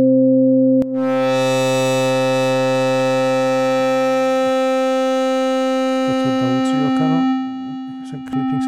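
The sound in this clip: A synthesizer sine-wave tone from a homemade synth, sustained and loud with a steady pitch, then shifting to a different tone and later to wavering, modulated tones toward the end.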